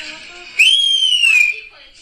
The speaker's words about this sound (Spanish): Esta señora está ahí está con su bebé y de repente llegan y le chiflan.